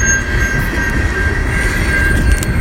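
A moving passenger train rumbles loudly and steadily throughout, with a thin, high wheel squeal running above the low clatter.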